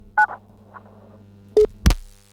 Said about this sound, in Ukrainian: А у мене є телефонний дзвіночок, кабінет 093, слава Ісусу Христу.